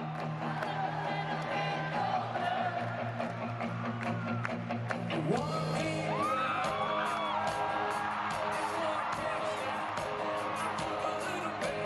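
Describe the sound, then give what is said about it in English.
A crowd cheers and whoops for a young performer at a rock music hall-of-fame event, the faint cheering mixed with sustained music throughout. “All right, kid's sitting down. He's getting cheered.”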